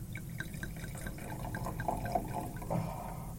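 Wine from a Uruguayan bottle pours out in a faint, soft trickle with small gurgling glugs, running steadily throughout.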